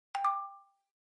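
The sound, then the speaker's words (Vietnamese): A mobile phone text message alert, a brief two-note electronic chime with a bright tone that rings on alone and fades quickly. “Vài giây sau, máy di động lại vang lên tiếng tít tít tin nhắn.”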